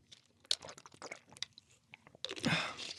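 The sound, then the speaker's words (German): A short sip of Gerolsteiner mineral water: faint, irregular wet mouth clicks and slurps, then a denser, louder burst of swallowing and liquid noise toward the end. “Nach diesem langen Text brauche ich auch erstmal einen kurzen Schluck Gerolsteiner.”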